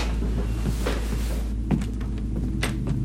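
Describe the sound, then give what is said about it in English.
A door being slowly opened by a masked intruder into a bedroom in a house. It gives a few soft clicks and scrapes over a steady low hiss, with no voices. “In Travis's room, a masked figure slowly opens the door and gazes inside”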